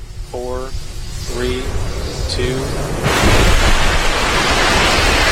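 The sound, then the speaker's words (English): A SpaceX Falcon 9 rocket lifting off at Cape Canaveral, Florida: a steady, loud, broad roar that swells sharply partway through, after a few spoken countdown numbers. “Wow, that is the sound of the SpaceX Falcon 9 rocket lifting off last night.”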